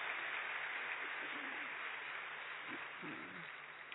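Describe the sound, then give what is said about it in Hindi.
Audience applause after a group's song performance: dense, steady clapping that runs throughout at a fairly faint level, with a few faint voices mixed in. “जोरदार तालियां हो जाए”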